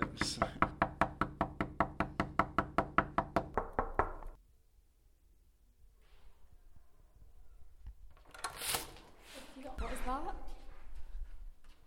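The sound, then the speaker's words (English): Knocking on doors: a rapid, loud run of many sharp, evenly spaced knocks for about four seconds, then a near-quiet stretch, followed later by voices and shuffling sounds. “Knocking on doors.”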